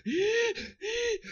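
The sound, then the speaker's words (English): Panicky gasping breaths imitated by a voice, mimicking a video game player running out of oxygen: two ragged, voiced inhalations, each loud and drawn out, separated by a short pause. “So as your oxygen goes down, your breathing starts to get more ragged and panicky.”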